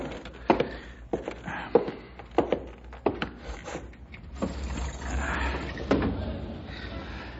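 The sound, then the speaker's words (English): A window being opened: several sharp knocks and clicks come first, then a longer, steadier rushing slide. “Sure is hot. Hard to concentrate on all this stuff. Huh. Wonder why I didn't open the window.”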